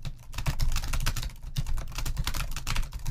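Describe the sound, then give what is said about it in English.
Rapid typing on a computer keyboard: a dense, continuous stream of light plastic key clicks with no voices. “Did I type that right? I'm trying to type as fast as I can when I'm on stream here.”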